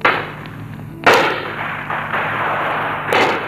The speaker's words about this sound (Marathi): गोळीबार सुरू झाला.